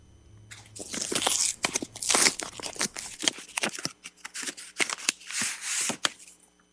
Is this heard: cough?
no